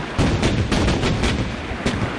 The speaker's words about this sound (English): At 7:30, exercise the great guns.